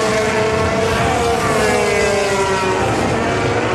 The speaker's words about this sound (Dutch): Hier ging het volgens mij, hoor ik, de toeren achteruit gaan.